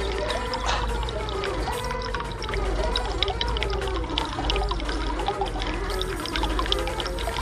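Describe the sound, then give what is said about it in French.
Water flowing steadily in a fountain, a continuous dense splash and rush with no breaks, with voice-like tonal sounds running over it throughout. “Toujours l'eau qui coule. Dans la fontaine de Cheyou.”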